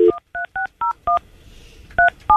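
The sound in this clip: Touch-tone telephone keypad beeps as a number is dialed: seven short, evenly pitched dual tones in quick succession, with a pause of about a second before the last two. No voices are heard.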